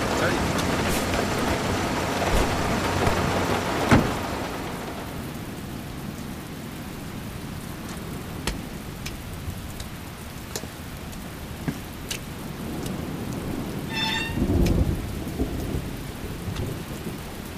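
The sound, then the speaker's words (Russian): A heavy rain downpour with thunder at night, a dense steady hiss of rain with occasional sharp cracks and a low rumbling swell of thunder. “Ливень, ночь. Часто сверкает молния.”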